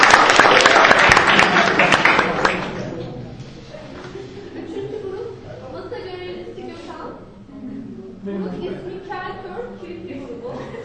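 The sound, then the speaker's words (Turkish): Audience applause for a group of university students at a competition: dense, loud clapping for about two seconds, then stopping as a person starts talking. “Evet, alkışlayalım arkadaşlarımızı.”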